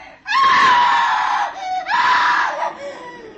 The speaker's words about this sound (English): I knew it was my sister who had screamed.